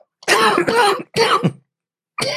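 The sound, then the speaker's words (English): A person coughs in a few harsh, loud bursts separated by short silences, with no talk. “Cough.”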